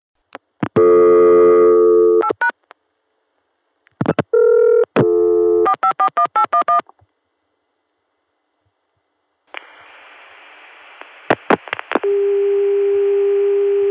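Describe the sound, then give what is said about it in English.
Telephone dialing with DTMF tones, then a Chicago CCSA dial tone reached through an ESS Centrex and a 454 PBX. Crisp beeps come in a few rapid groups, then a steady dial tone follows, broken by a few clicks before it holds on. “which dials through an ESS Centrex to get to the 454 PBX, and that PBX does give us a Chicago CCSA dial tone. See you at the Chicago dial tone.”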